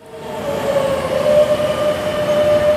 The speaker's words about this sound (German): Die Metro von Madrid ist alles andere als ein Ort der Ruhe, zumindest zu den Stoßzeiten. Bahnen kommen fast im Minutentakt.